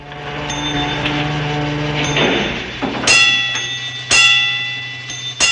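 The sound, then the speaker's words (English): A fire bell rings by itself with loud metallic strikes and long, bright ringing overtones at a slow, even pace. A steady low hum and sustained tones run underneath. “A fire bell rings by itself.”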